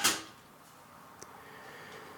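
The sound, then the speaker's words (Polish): The tape door of a cassette deck snaps shut with one sharp plastic click at the very start. Faint hiss follows, with a small tick a moment later. “niemal we wszystkich deckach jest tak, że kasetę wkładamy taśmą do dołu. Głowica jest pod spodem. Zamykam klapkę.”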